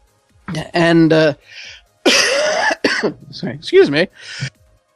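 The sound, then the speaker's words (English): A coughing fit with choking: a loud series of harsh, rasping coughs and throat-clearing bursts in uneven spurts, with short gaps between them. “Sorry, just choking to death for a moment there.”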